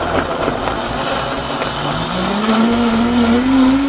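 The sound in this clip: A blender grinds a smoothie with pineapple juice, giving a loud, steady whirring roar whose motor tone climbs gradually in pitch as it keeps running, with no voices.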